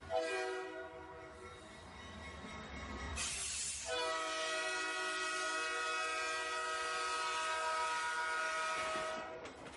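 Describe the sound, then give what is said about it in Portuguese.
Locomotive train travelling the Sena railway line from Moatize, carrying passengers and freight: a long, loud horn blares over the continuous rumble and clatter of the cars on the rails, broken briefly by a harsh burst of noise. “A nossa viagem começa na estação ferroviária de Moatize. À medida que a locomotiva avança pelos trilhos da linha férrea de Sena, transportando passageiros e mercadorias entre diferentes pontos do país,”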